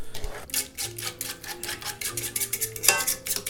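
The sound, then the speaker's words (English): An egg is whisked into sugar and molasses for cookie dough, making quick, steady clicking and scraping strokes against a bowl in a continuous rhythm, with no voices. “I have to whisk in an egg”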